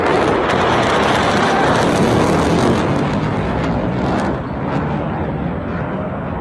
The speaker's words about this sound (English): That's the sound of an American fighter jet releasing flares